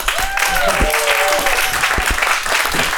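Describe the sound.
An audience gives warm, sustained applause as a speaker is welcomed on stage, with a voice talking over the clapping.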